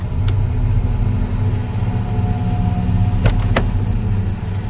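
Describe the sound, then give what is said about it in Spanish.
A car arrives at a warehouse with a loud, steady engine rumble that fills the whole stretch. A few brief sharp ticks cut through the low drone. “Ronald ve llegar el coche de Bloomfist.”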